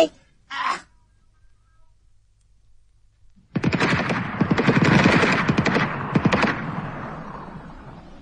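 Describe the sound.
Rifle gunshots at shooting practice: two isolated sharp shots, a pause, then a long rapid volley of many cracks, loud and dense before fading out.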